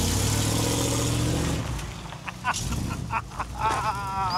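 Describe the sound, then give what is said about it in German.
Engine rumble from a vehicle carrying a two-tonne camper cabin as it drives off. The steady, loud drone lasts about a second and a half, then drops to quieter vehicle noise with a few brief, scattered sounds. “pass auf, der fährt los.”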